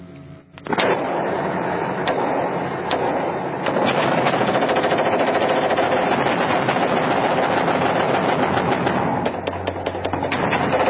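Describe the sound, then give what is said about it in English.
Automatic gunfire shooting into a mosque: a loud, unbroken stream of rapid shots that starts after a brief quiet moment and runs for about ten seconds without pause. “There was no fire that was taken from that mosque. It was shot into because we were angry.”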